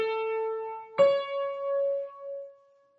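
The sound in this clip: A major third interval, Do to Mi: one sustained, clear musical note, then a second note a major third higher that rings on and slowly fades.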